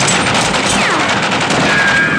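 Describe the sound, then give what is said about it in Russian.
Automatic rifle fire from a traffic police car, shot through its window into a Mercedes on a bridge: a loud, dense, continuous rattle of rapid shots filling the whole clip. “Сотрудник ГАИ через окно стреляет из автомата по салону «Мерседеса». Пули попадают в водителя, задевают пассажира.”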